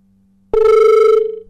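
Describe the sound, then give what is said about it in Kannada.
Telephone ringing with an incoming call: one loud, buzzing electronic ring with a slightly warbling tone that begins abruptly over a faint hum and fades at the end. “ಪ್ರಮುಖವಾಗಿ ಒಂದು ಕರೆ ಇದೆ sir, ನಂತರ ಮಾತಾಡೋಣ.”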